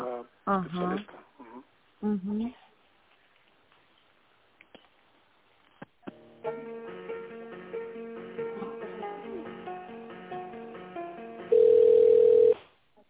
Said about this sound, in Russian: Так, а давайте я вас переключу на